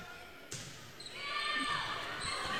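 A volleyball serve in a Perham versus Breckenridge match: a single sharp smack of hand on ball near the start, followed by crowd noise that swells and holds steady.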